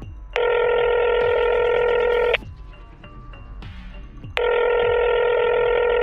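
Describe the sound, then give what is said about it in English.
A telephone call rings out after a number is dialed: two long, loud electronic ring tones of about two seconds each, separated by a quieter pause with faint line noise. “The temporality annex is dialed.”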